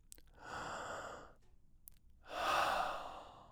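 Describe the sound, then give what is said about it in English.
A deep breath is drawn in and then let out: two soft, airy rushes with a short pause between them, quiet and with no voice. “Let's take a deep breath to get ready, and then we'll start.”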